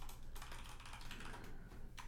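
Rapid typing on a computer keyboard, a dense run of many crisp keystroke clicks at a steady pace with no talk over it.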